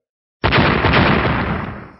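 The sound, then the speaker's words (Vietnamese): A loud explosion sound effect: one sudden blast strikes sharply, then rolls on as a dense, roaring rumble that slowly fades out, with no voices. “Tiếng nổ lớn từ bốn phương tám hướng truyền đến”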